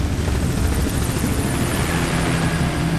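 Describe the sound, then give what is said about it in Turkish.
A helicopter's rotor gives a steady, fast throbbing roar that holds at an even loudness throughout. “Lanet helikopter.”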